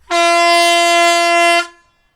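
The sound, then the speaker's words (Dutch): A single loud, sustained air-horn blast lasting about a second and a half, a rich, brassy tone holding steady before cutting off abruptly. “Maar speciaal voor deze ga ik even toeteren, jongens. Ja, doe even toeteren.”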